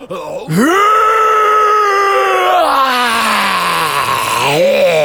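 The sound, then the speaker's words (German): A loud, drawn-out roar bursts from inside an igloo. A single groaning, voice-like cry holds for several seconds, its pitch rising at the onset and then sagging slowly before lifting again near the end. “In diesem Augenblick dringt ein fürchterliches Gebrüll aus dem Iglu.”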